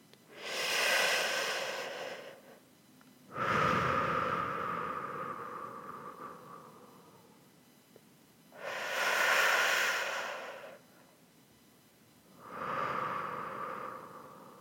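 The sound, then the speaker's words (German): Slow, deep human breathing: unhurried inhales and exhales, each a soft, airy rush lasting a few seconds and separated by quiet pauses, with no talking. “dann lade ich dich ein, mit mir gemeinsam ein paar tiefe Atemzüge zu nehmen. Also ein tiefes Einatmen und ein tiefes Ausatmen.”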